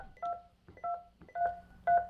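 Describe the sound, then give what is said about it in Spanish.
Touch-tone keypad dialing a phone number that starts with Poland's country prefix: four short, evenly spaced beeping tone pairs, moderately loud, with brief quiet gaps between them and no talking. “Vamos a marcar el número. Vamos a ver. Ahí está. Marcamos el prefijo de Polonia.”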